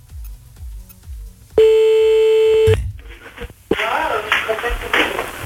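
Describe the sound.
A telephone tone sounds as a prank call is placed during a late-night radio show: one steady, loud beep lasting about a second, followed by people talking.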